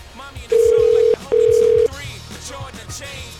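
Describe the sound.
A telephone line rings while calling a budget hotel. Two loud, steady, single-pitch ring tones sound in quick succession, each under a second long, and low talk continues underneath and after them.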